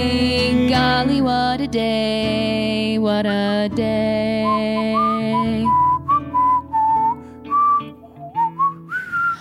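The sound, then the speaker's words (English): Whistling by a person: a melody of short, separate high notes in the second half, each rising or stepping in pitch, preceded by a dense passage of sustained, layered tones with no speech. “Oh my gosh, you can whistle?”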